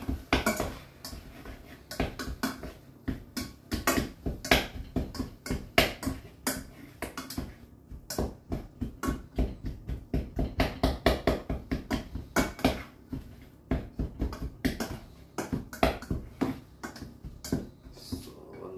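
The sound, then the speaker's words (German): Repeated knocks of spinach being chopped inside a cooking pot: many sharp, hard strikes in quick bursts, fairly steady in rhythm and continuing throughout. “Schauen wir uns mal nach dem Spinat um, dass da nichts anbrennt. So, mal reinhacken.”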